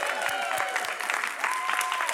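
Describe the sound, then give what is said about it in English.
An audience cheers and applauds at an event celebrating essay writers. Dense clapping carries on throughout, with whoops and shouts layered on top. “If you are here to celebrate the 2023 This, I Believe, essayists, get up and make some noise.”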